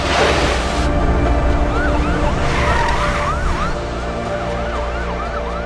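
Wailing ambulance siren in a video game, its pitch sweeping up and down in repeated cycles over a dense, steady bed of engine and street noise.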